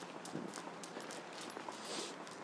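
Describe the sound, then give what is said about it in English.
Faint footsteps of people walking along a London street near St. Thomas's Hospital, soft repeated steps at an even pace over a hiss of background noise. “Now, walking up here, I think on the left-hand side is St. Thomas's Hospital,”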